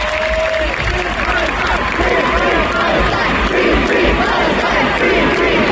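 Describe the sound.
Concert audience cheering as a band is introduced: a loud, continuous roar of crowd noise with shouting and clapping, holding steady throughout.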